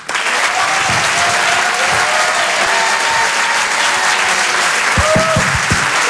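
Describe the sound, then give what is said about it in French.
Theatre audience applauding a comedian's entrance at a live stand-up show in Paris: a steady, loud roar of many hands clapping without pause, with a few sharper claps standing out near the end. “Je vous demande de faire un maximum de bruit, s'il vous plaît, pour Arturo.”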